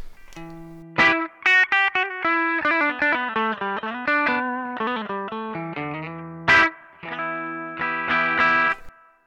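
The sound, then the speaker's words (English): Electric guitar from a Fender Stratocaster with 1965 vintage-style pickups, played through a valve amp with mild breakup: a lively run of distorted notes and chords with a few hard-struck attacks, steady in level throughout. “So starting off with a Fender Stratocaster that has 1965 pure vintage style pickups, which have a 5.9K output. So that sounds like this.”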